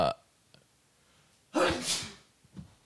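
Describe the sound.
Someone sneezes once, a loud explosive burst of breath after a quiet stretch, with a softer short sound just before it and a faint one after.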